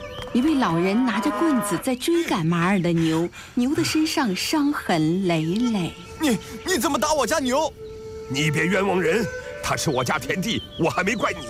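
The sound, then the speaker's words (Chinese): A stray cow loose in farmland moos again and again, with loud, drawn-out, wavering calls separated by short pauses over about eleven seconds. “牛儿，你又跑去哪里了？”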